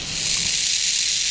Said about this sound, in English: So this is the sound of data being taken.